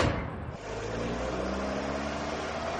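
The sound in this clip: A car drives off with its engine rumbling low and steady after a brief dip at the start. No voices are heard over it.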